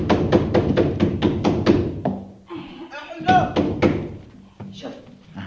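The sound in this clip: Loud pounding on a door in a rapid, insistent series of knocks as someone calls out, followed by voices talking with a few more knocks among them.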